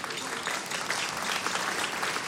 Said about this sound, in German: Sie müssen jetzt nicht jedes Mal klatschen, wenn Sie was verstanden haben.